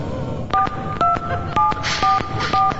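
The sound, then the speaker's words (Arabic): Five telephone keypad tones as someone dials a husband's number, evenly spaced two-note beeps about half a second apart, each with a small click. “أدق على رجلها أحسن”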